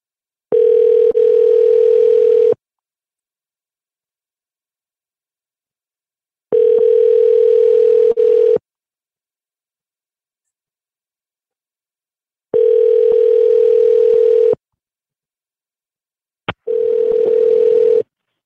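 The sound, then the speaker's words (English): Ringback tone of an outgoing phone call to a 24-hour line late at night, ringing out unanswered: four long, steady mid-pitched tones of about two seconds each, separated by roughly four-second silences, with a brief click just before the last ring. “Let's give him a call back.”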